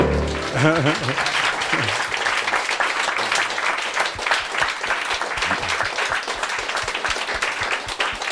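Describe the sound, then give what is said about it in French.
Audience applause after a song at a live talk evening, dense steady clapping throughout with a voice heard over it near the start. “on t'applaudit”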